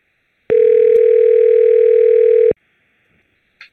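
A single steady telephone ringback tone, about two seconds long and fairly loud, heard while calling a 24-hour art studio, followed by silence and a brief faint blip near the end.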